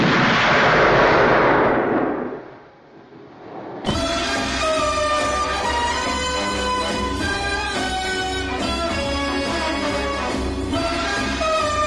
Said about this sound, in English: Tracks the figure of James Bond across the screen. Bond turns to face the camera and shoots.